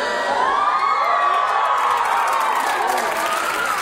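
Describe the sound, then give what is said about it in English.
A sitcom studio audience cheers and whoops: dense, continuous crowd noise with high, sliding whoops and shouts, and clapping underneath. “And you know that this person is fine because as soon as they step into a scene, we hear this noise from the studio audience.”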